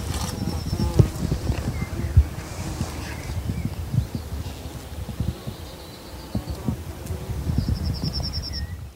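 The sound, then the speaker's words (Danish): Faint buzzing of bees among flowering bushes on an old coastal cliff slope in spring. The soft drone mixes with low wind rumble and rises and falls slightly over the whole stretch. “Der er noget biværk heroppe, tror jeg.”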